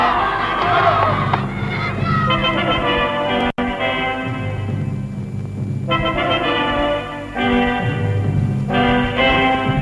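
A crowd gives a fourfold hip hip hurrah for the winners of the first TV-pucken tournament in 1959. Loud shouted cheers come in repeated bursts separated by brief lulls.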